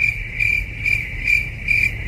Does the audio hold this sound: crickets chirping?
yes